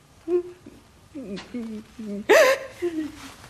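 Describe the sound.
A voice cries in a run of short, high whimpers and hiccuping sobs with gaps between them, building to a louder, wavering wail before trailing off into softer whimpers.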